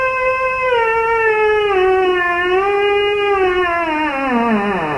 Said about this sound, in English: So that instrument is called a theremin and it's named for the Russian scientist who invented it. It's been used in soundtracks, pop music. And it's an instrument that is played without ever actually touching it.